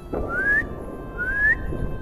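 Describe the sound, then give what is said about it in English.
A girl whistles in Beijing to call cats to their meal, making two clear whistled notes that each slide upward in pitch, separated by a short pause. “A whistle, and the only whistle cats in Beijing know to respond to.”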